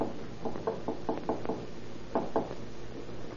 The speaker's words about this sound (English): You knock on the door